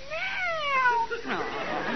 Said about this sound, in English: Oh, pretty cat.